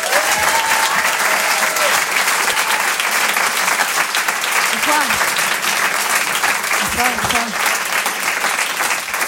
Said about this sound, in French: Je vous demande une ovation, s'il vous plaît, pour Elisabeth Buffet.